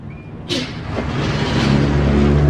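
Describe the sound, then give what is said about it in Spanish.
A city bus on line 146 pulls up at a stop: a sudden burst of hiss, then a low engine rumble that grows steadily louder. “Caminamos unas cuadras y llegamos hasta la parada del colectivo. No tiene un cartel, pero los años me enseñaron que la línea 146 para ahí.”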